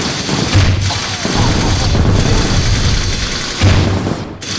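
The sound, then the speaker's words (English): Video game gunfire blasts a weapons cache, with dense rattling bursts of shots and heavy booming thumps forming a loud, nearly continuous barrage. “Weapons cache located. Eliminate the threat. Light it up!”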